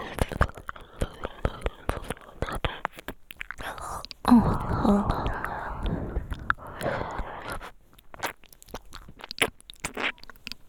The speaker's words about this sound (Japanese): お耳おいしい。お耳に舌を貼り付けるとドクドク出てる。